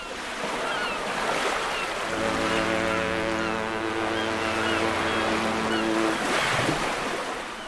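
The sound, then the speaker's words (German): Hamburg harbour ambience carries steady wind and washing water. Midway, a deep ship horn sounds one long, low, sustained blast before fading back into the rushing background. “wir starten erstmal in ganz vertrautem Terrain hier bei uns zu Hause. Ja, nämlich im Hamburger Hafen.”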